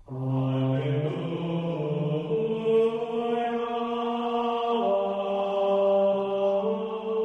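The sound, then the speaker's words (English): Long, reedy low notes come from a serpent, an old leather-covered wooden wind instrument. Each tone is held steadily at an even volume, shifting pitch only a few times, and there is no other sound. “The serpent was invented in the late 1500s in France to accompany plain chant in church, partly because it was less expensive than an organ, but it's no less cumbersome. With a little work, you can make it sound like this.”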